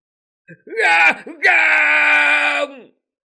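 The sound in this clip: People scream in despair: a short, strained cry breaks off, then a loud, long, anguished wailing scream holds steady before fading out, heard alone.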